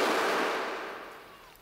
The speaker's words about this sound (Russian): Выстрелил себе в висок.